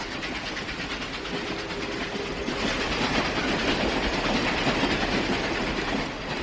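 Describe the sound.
A train running, used as a sound effect: a steady, loud rumble of rail cars with a rhythmic clickety-clack that carries on throughout, with no voices.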